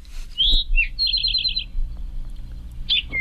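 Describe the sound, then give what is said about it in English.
An eastern towhee, also called rufous-sided towhee, sings two clear opening notes followed by a rapid, even trill, then gives another short call a little later. “That's the eastern towhee, which I've also heard called the rufous-sided towhee.”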